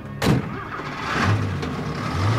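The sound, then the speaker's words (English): A truck driving off: a sharp knock, then a low engine rumble that builds gradually and keeps droning. “The truck heads off as Clarissa”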